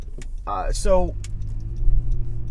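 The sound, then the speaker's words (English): Car interior road noise while driving home from work: a steady low rumble runs throughout, with a short voiced sound near the start. “as I am driving home from work”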